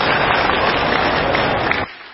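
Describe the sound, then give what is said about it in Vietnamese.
Audience applause, dense and steady, a loud wash of many hands clapping together that holds for almost two seconds before cutting off sharply near the end. “Và dành tràng pháo tay cho lời phát nguyện hay.”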